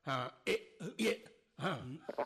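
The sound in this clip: A man coughing in a run of rough, throaty bursts, several fits with short gaps between them, voiced and harsh rather than dry.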